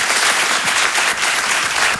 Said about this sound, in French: Applaudissez ceux qui ont des filles, peut-être?